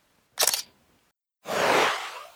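Camera shutter sounds as a photo is taken of a window frame with rotten wood: a short, sharp burst, a pause, then a longer, softer hissing sweep.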